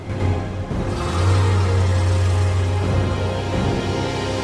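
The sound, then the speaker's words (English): A powerful escort vehicle pulls away with a van following, producing a steady low engine drone with a brief dip near the start and a slight swell after, with no voices. “A powerful escort vehicle with flashing roof lights pulls away. The van follows.”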